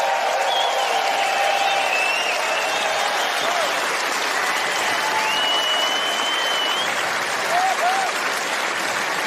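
Concert audience applause welcoming a guitar and mandolin player from Oklahoma onto the stage: thick, steady clapping that stays loud and even for about nine seconds.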